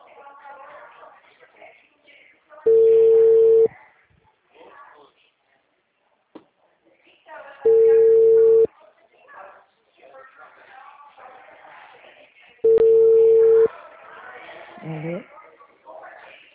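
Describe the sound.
Ringback tone of an outgoing telephone call: three long, steady mid-pitched beeps, each about a second long and spaced roughly five seconds apart, with a voice talking between them.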